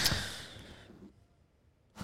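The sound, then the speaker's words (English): A deep breath: a long, breathy exhale that gradually fades over about a second, then quiet, then a short breathy onset at the very end. “I was just taking a deep breath.”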